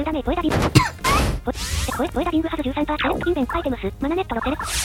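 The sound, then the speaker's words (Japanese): Poké Ball throw and capture sounds from a Pokémon video game, with whooshing and thwacking bursts mixed under a voice that talks throughout. “モンスターボール。まあ何事もなく捕まえれました。”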